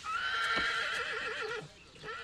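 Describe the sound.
A horse in a stall lets out one wavering whinny that trembles up and down in pitch, loud and alone over a steady rustling background.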